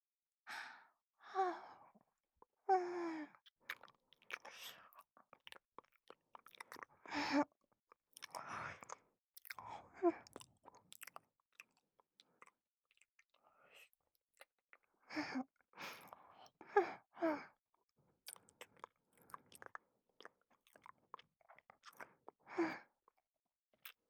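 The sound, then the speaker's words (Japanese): Wet licking and mouth sounds as a generous amount of cream is licked off, coming in many soft, irregular bursts with brief pauses, close and quiet. “まだですよ。左側にたっぷりクリームがついてますからそっちも舐めちゃいますね。”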